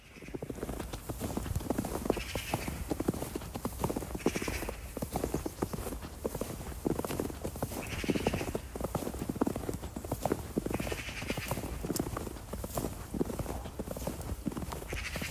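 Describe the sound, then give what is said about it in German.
Someone walks through snow, each step a soft, crisp crunch. Many footsteps repeat alone in a steady walking rhythm for about fifteen seconds. “Schnee. Mhm. Jemand, der durch Schnee läuft.”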